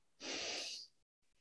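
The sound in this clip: One deep breath taken during a guided relaxation, a single soft, airy draw of air lasting under a second and heard alone, followed by quiet.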